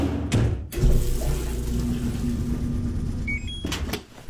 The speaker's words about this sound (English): But what about those sounds? Those are the sounds of your spring cleaning with a new laundry set,